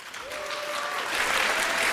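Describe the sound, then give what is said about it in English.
An audience applauds to welcome a speaker at a congress, a smooth, steady wash of clapping that slowly grows louder over two seconds. “Big applause for Buddy.”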